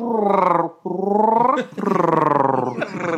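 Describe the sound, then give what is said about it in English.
Chewbacca-like growl used as a sound effect in a music track: rough, throaty growls with a dense buzzing texture, in a few sustained bursts separated by brief gaps. “And you notice that he gets a Chewbacca noise in there, too, somewhere?”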